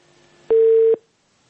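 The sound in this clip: A single telephone tone sounds after a call is cut off: one steady, mid-pitched beep lasting about half a second, loud over a faint line hiss, followed by silence.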